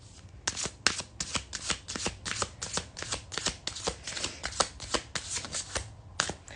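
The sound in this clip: Tarot cards being shuffled: a long run of many quick, crisp card flicks in a fairly steady rhythm, heard alone.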